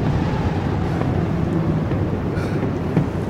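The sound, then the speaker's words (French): Storm wind: a dense, steady roar of rushing, rumbling noise that holds evenly throughout, with faint gusty flutters on top. “Quelle tempête, mais quelle tempête! Une tempête tous les trois jours.”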